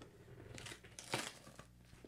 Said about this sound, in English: Whoa, tape. Yes.